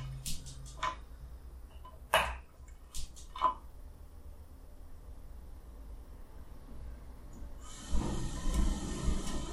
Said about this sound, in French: il faut que j'allume le four. Donc euh, c'est un four à gaz, un four en inox à gaz. Et c'est parti pour la mise en chauffe.